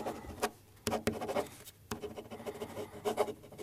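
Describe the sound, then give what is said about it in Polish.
Handwriting in a notebook, soft scratchy pen strokes in irregular bursts with a few sharper taps and short pauses between them. “Poza tym lubię mieć informacje w tym notesie. Mam go w sumie od dawna. No, rzeczywiście. Znaczy, tak, rozumiem. Tak, już piszę.”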